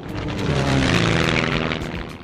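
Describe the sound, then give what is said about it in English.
Airplane engines drone in a broad roar with a throbbing tonal hum, building to a peak partway through and then easing slightly, with no talking. “An airplane has big engines that sound like this.”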